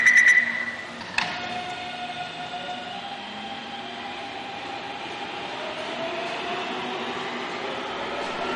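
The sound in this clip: A train runs on rails with a steady, even rumble that carries through, after a louder burst at the start and a sharp click about a second in.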